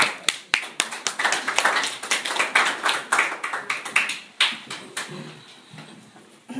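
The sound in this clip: An audience clapping to welcome a speaker at an evening talk, with many distinct, sharp hand claps forming a lively, uneven patter that stays steady for several seconds and then thins out and fades toward the end.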